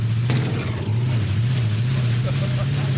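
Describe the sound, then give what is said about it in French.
Engine revving as a slow vehicle with a slight carburetion fault accelerates, a low steady drone that climbs a little in pitch, with voices talking over it. “Bon, là, je vais accélérer.”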